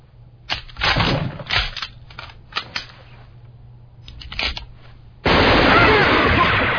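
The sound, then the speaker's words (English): Gunfire during an armed confrontation as police arrive: a few loud, separate bursts of shots early on, then a sustained, dense, roaring stretch of rapid fire that runs to the end. “Stop it! Who told you to fire? Put your guns down now!”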